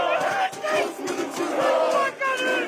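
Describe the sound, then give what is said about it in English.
Protesters in Turkey chant in unison at the mass demonstrations that began on March 19. The loud, rhythmic phrases repeat, broken by short pauses between the chanted lines. “this is the sound of Turkish protests that began on March 19th.”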